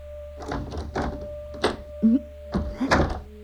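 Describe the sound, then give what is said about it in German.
Someone handling and locking a door: several hollow clunks and rattles of the lock and handle, with a brief rising squeak in the middle, all over a low steady hum and without voices. “Lass meine Tür in Ruhe. Du sollst doch nicht zuschließen.”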